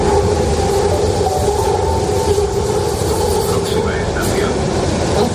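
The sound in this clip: Madrid metro train arriving and taking on passengers, a loud, steady rumble and rolling clatter that runs throughout, with brief high squeals near the end.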